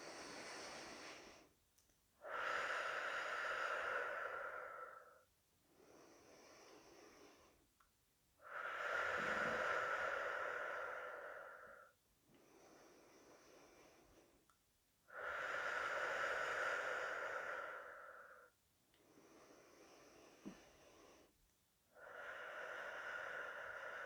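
Slow breathing in and out during a guided breathing exercise, long loud airy breaths alternating with softer, quieter ones in an even, unhurried rhythm.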